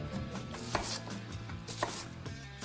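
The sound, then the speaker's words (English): Knife cutting through an onion toward the root, the blade's weight pressing down: quiet crunching and rubbing slices with two sharper knocks against the board, no voices. “With the weight of the blade to cut through that onion to get to the base of the root.”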